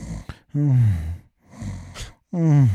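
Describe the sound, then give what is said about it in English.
A voice imitating snoring and moaning, drawn-out low groaning moans alternating with rasping, snore-like breaths and short gaps of near silence. “he had this little phase where he was like snoring and moaning. So he was going,”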